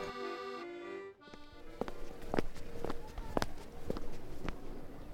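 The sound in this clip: Footsteps of people walking toward a Jewish ghetto neighborhood: several steady, evenly spaced thuds that fall into a regular stride after a brief steady tone at the start fades out.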